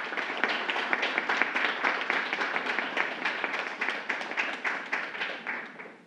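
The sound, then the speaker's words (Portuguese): A round of applause at a formal ceremony: many hands clap in a brisk, steady patter of distinct claps that tapers off toward the end. “Salva de palmas.”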